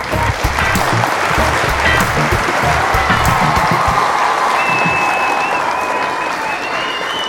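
Sustained applause from an audience welcoming a guest, a dense, even roar of clapping that holds steady and loud from start to finish.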